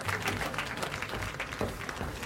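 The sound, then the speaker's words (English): Tepid audience applause as a comedian takes the stage, moderate, steady clapping that neither builds nor fades over about two seconds, with no cheering. “Thank you for the tepid applause.”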